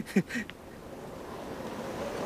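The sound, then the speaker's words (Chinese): Wind rising: a steady, faint, broad rush of air that slowly builds in strength, with a few brief sounds at the start. “要起风了”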